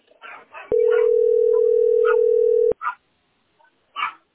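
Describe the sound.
A telephone ringing tone while a call is being placed: one long, steady, mid-pitched tone lasting about two seconds. Brief bursts of talk come before and after it.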